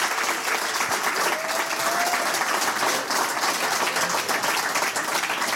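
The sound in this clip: An audience gives warm applause to welcome a guest onto the stage, with dense, even clapping that carries on unbroken and loud throughout.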